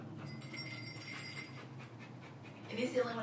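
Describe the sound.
A dog panting with quick, rhythmic breaths, quiet and steady throughout.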